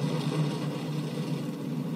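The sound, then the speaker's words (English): Launch roar of a SpaceX Falcon 9 rocket's nine Merlin engines, a continuous broad rumble holding steady at moderate loudness with no break. “Here we go. 9 Merlin engines. Wow. All right, folks. Here we go. The Falcon 9.”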